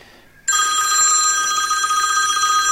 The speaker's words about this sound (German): Ja, geh mal lieber ran, bevor er wieder aufhängt.